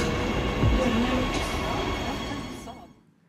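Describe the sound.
A train arriving at a station gives a steady rumbling roar with a brief wheel squeal early on, then dies away into silence near the end.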